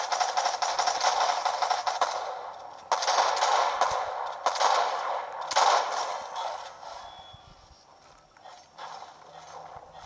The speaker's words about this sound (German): Er hat auf ihn geschossen.